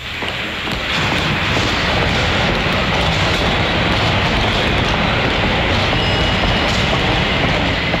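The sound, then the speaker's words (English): A subway train rumbles loudly through a New York station. The dense roar and clatter run unbroken for the whole stretch, with a faint, brief high squeal of wheels near the end. “People going places. People passing through turnstiles and boarding the subway.”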